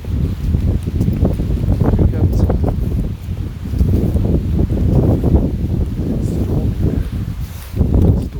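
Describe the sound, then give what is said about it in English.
Wind on a stormy day makes a loud, steady, low rumble that buffets the microphone and continues throughout with only slight swells. “Probably hear the wind, not sure.”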